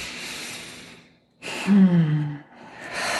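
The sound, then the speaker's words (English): A deep inhaled breath during a guided relaxation exercise, drawn in for about a second with a slightly voiced, gasping edge, following a brief pause of near silence. “So if you just take a deep breath in and find that inner peace.”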